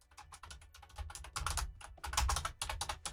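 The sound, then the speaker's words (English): Typing a Facebook search for a local backyard astronomy group on a computer keyboard: rapid, irregular clusters of crisp keystrokes, moderately loud and continuous, with brief pauses between bursts. “So what am I looking for on Facebook? If you type in Daventry and surrounding areas, backyard astronomy,”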